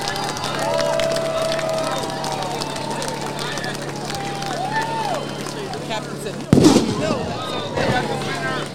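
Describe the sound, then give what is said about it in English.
A single sharp crack of a starting gun fires to begin a boat race between school teams, coming late after a stretch of people talking, with crowd noise continuing afterward. “You'll hear the gun. Once you hear the gun, then you start the race.”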